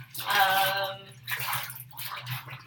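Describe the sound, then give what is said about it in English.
Water splashing as a person washes their armpits: a few short splashy bursts with a fainter low hum underneath. “So yeah, I'm just washing myself. I'm washing my armpits right now.”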